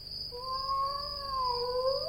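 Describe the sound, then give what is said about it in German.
A cat gives one long, drawn-out meow that holds steady for about two seconds, then rises sharply in pitch at the end. It is clear and fairly loud, with no talking. “Ne, da miaut was.”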